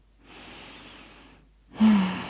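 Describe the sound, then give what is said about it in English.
A deep breath: a long, airy inhale that fades slightly, a short pause, then a stronger, louder exhale carrying a brief voiced sigh. “Okay, I'm going to take a bit of a deep breath. I feel like I'm really rushing and I don't want to do that. So let me take a breath.”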